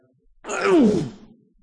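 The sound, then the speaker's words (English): A man's voice imitates an involuntary angry groan: one rough, breathy vocal sound lasting about a second. It swells to loud, dips in pitch, then tails off, with no words spoken. “One scholar described this as an involuntary groan came out of Jesus. I tend to think of Jesus standing there and going”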